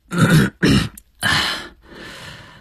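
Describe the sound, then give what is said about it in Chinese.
Throat clearing at a restaurant dinner table: a few rough, guttural bursts, strong and low at first, with a softer, breathy tail at the end. “徐海东的反应比较快，清了清嗓子说”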